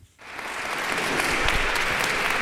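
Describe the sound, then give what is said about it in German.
A crowd applauds outside a courthouse in Avignon. After a brief hush the clapping swells quickly into dense, sustained applause from many people that holds steady to the end. “Applaus für Gisèle Pélicaud, sobald sie das Gerichtsgebäude betritt.”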